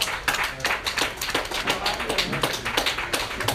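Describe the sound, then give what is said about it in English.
A church audience claps their hands in a steady rhythm during a sermon, the claps beating evenly and firmly while a voice carries on over them. “Can y'all clap out your hands for me?”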